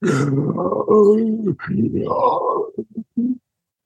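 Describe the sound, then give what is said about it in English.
A human voice imitates a bear's roar with a long, strained, groaning growl, a brief break, then more growling that trails into a few short choppy grunts before stopping. “But it, when it opens its mouth to roar, it just kind of is like,”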